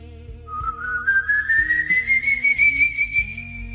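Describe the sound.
An eerie, inhuman-sounding whistle glides slowly and steadily upward in pitch, sustained over a low, pulsing background drone.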